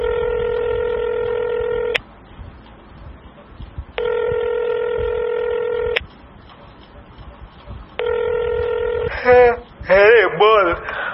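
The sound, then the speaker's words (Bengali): Outgoing call from a mobile phone: three buzzing ringback tones with even gaps between them, then a voice starts talking as the ringing stops. “মনে মনে কিছু ভেবে নিয়ে table থেকে মোবাইলটা তুলে নেয় সে, তারপর একটা নাম্বার ডায়াল করে।”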